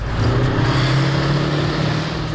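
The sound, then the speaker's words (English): An old Warrior armoured vehicle drives laps around an arena at an annual tank festival in Dorset, giving a loud, steady engine rumble with a deep low drone that holds throughout, with no voices. “Warrant Officer Bahari drove laps around the arena in his old workhorse Warrior”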